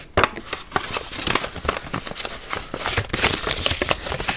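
Paper map being folded back up: crisp crinkling and rustling of stiff paper, with many sharp crackles and soft creases in a steady, uneven run and no voices.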